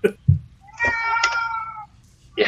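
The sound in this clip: A cat meowing: one drawn-out, tonal meow lasting about a second, set between short, sharper sounds at the start and end.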